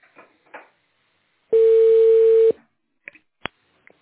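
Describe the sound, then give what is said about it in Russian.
A steady, mid-pitched telephone tone holds for about a second after a call's line drops, with faint clicks and brief bursts of line noise before and after it. “Алло. Алло. Связь пропала.”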